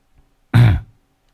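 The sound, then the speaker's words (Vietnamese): One short, loud cough rings out alone against near silence, lasting about a third of a second. “Lúc nãy ho phát đấy, quả đấy là ho thật đấy không ạ?”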